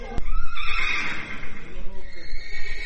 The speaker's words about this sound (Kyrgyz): Азыр 11 ат бар. Негизи бияка балким 30 ат батат.